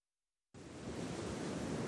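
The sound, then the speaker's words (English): Surf washes onto a white sugar-sand beach at Pensacola, a steady broad hiss of waves that starts abruptly after a moment of silence and holds, gradually growing fuller. “Picture yourself here. White sugar sand beach, clear blue-green water. This is Pensacola.”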